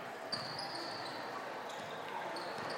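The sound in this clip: A basketball is dribbled on the court during a game between the Harbor Beach Pirates and their opponents. Faint thuds sit under steady background noise, with one sharper bounce standing out early.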